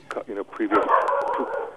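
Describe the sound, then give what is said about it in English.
Dogs bark and yip at a delivery man, short sharp outbursts mixed in with a person talking throughout. “The dogs are going after the delivery man.”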